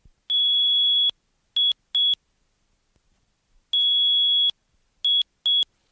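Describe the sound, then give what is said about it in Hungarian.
Incoming call signal from a helmet speaker: high electronic beeps in two matching groups, each a long tone followed by two short ones, clear and alone over silence. “Már megtettünk vagy fél kilométer utat, amikor hívás jelzett sisakunkban a hangszóró.”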